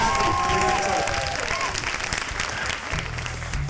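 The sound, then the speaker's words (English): Audience applause fills the whole clip with dense, steady clapping at a constant loud level, the crowd noise holding without a clear fade. “Big round of applause.”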